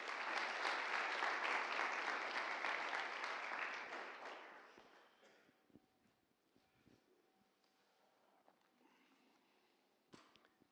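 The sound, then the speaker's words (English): An audience welcoming a pastor at a church gathering breaks into dense, sustained applause for about four seconds. It then fades away into quiet, with only a few scattered small noises afterward. “Let's just put our hands together.”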